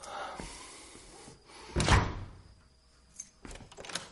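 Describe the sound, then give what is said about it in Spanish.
A door being closed and bolted: one solid thump as it shuts, followed a moment later by a few small clicks and rattles of the latch. Everything stays fairly quiet. “Cierra la puerta con pestillo.”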